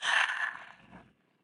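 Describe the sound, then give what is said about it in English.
A single airy breath during a guided breathing exercise, breathing in through the nose and out, heard as a loud breathy rush at the start that thins and fades to quiet. “Again, inhale through the nose. Hold it. Exhale.”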